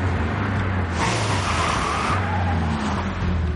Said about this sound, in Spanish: El coche de policía pasa de largo